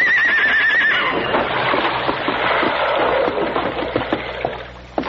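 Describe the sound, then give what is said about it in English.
A horse neighs as its rider pulls hard on the reins to back it up, opening with a loud, shaky, wavering whinny. A dense clattering rush of movement and scuffling follows and gradually thins out. “Dan pulled frantically on the reins. Back up, Victor. Back, fella.”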